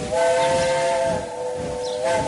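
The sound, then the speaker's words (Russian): A departing express train's steam locomotive sounds its whistle: a loud, sustained, chord-like tone over a steady hiss, dipping briefly before swelling again. “Паровоз курьерского поезда, удалившись, запел в открытом пространстве на расставание.”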